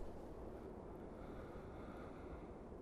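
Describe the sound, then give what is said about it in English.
Wind blows across an open hill as a faint, steady, low rushing that does not let up. “Just laying out here on this windy hill with you all.”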